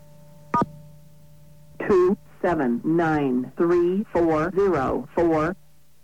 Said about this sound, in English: We're going to dial 959 plus 4 digits. Listen to what happens.